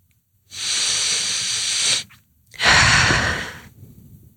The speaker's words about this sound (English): Should we take a breath? Maybe one more.